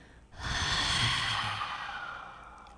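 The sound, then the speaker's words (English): A long audible exhale from the belly during a guided breathing exercise: one soft, breathy sigh that begins after a brief pause, swells, and then fades slowly over about two seconds, with no talk. “take an audible exhale from your belly center to the center of the earth”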